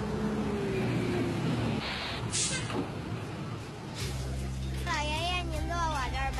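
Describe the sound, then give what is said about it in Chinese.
Low engine rumble from city bus number 5 pulling into a stop sets in partway through, steady and loud beneath brief high whistling tones. “五路公交车马上就要进站了，请大家自觉排好队。”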